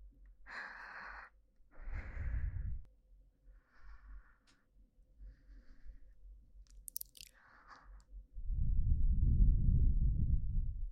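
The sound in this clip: Exhaling close to the listener's ear: a few short, breathy puffs and soft mouth sounds, then a long, low, rushing breath at the end. Quiet and intimate, with no clear speech.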